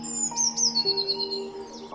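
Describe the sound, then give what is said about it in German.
Blue tit chirping: a few bright, high-pitched chirps and thin whistled notes, fairly faint over a quiet background, with no talk. “Die Blaumeise fliegt zu dir herunter und landet direkt auf deiner Schulter.”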